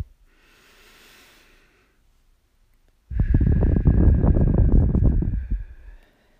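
Slow, deep breathing exercise of one breath in for a count of four and out for six: a soft, faint inhale, a short pause, then a longer, much louder, breathy exhale that fades out.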